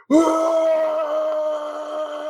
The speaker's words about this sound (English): And from behind the door, you hear this unearthly wail, literally so loud that it rattles the walls of this hospital.